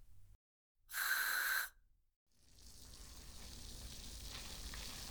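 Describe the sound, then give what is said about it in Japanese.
Carbonated shampoo fizzes and crackles as it is lathered in the palms. A short, bright hiss comes first, then a faint, continuous, crackling fizz. “今の音でどんなシャンプーか取れちゃったかな。そうです、シュワシュワパチパチの炭酸シャンプ”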